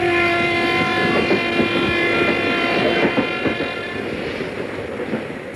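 A train pulling into a station sounds a steady, sustained horn over continuous rumbling clatter, growing slightly quieter toward the end.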